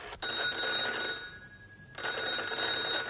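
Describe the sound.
Telephone bell ringing: two long, bright metallic rings, each about a second, separated by a short lull, steady and fairly loud with no voices.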